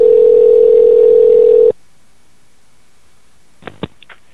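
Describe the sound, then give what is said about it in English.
A telephone dial tone plays as a steady, loud hum and then cuts off abruptly. After a short silence come a few brief, fainter keypad tones as a number is dialed. “Go ahead and dial up that number if you could, please”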